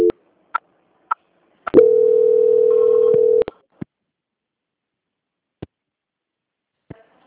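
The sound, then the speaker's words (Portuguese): Telephone call transfer tone as a customer service call is passed to a quality control department: one steady mid-pitched tone holds for under two seconds. Sharp clicks come before and after it, and no one speaks. “Aguarda só um momentinho na linha que eu vou transferir o senhor para o controle de qualidade”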